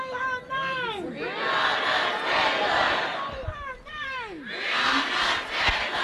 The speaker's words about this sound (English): When you hear the word protest, different sounds might come to mind. Sometimes protest sounds like this.